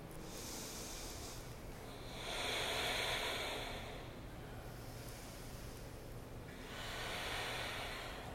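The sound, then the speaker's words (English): Deep, slow breathing during a yoga warrior two pose: long breathy swells rise and fade twice over a faint, steady hiss. “In, empty, fill up, breathe out, one more,”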